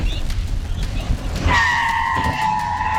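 A motorcycle's tyres squeal as it brakes hard and skids before striking a child on a bicycle. Low road rumble gives way midway to a sustained, high-pitched screech that lasts to the end.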